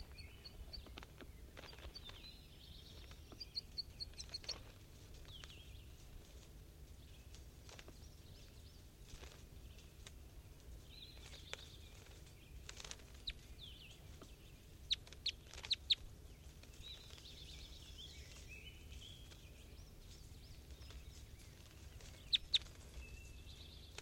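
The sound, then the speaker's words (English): Captive birds calling from inside a cage in the morning: faint, scattered short chirps and clucking calls, many brief notes spread irregularly over a low steady hiss. “These are the birds in the cage at 9:45 a.m.”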